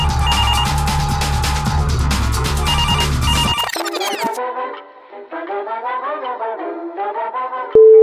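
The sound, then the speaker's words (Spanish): A telephone rings for an incoming call. A loud, dense, bell-like ringing burst gives way to a repeating melodic electronic ringtone pattern, ending with a short steady beep. “Sí, tenemos una llamada. Adelante con la llamada del señor político honrado.”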